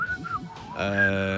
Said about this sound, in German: Kannst du da bitte mal ganz zu Veranschaulichungszwecken mit pfeifen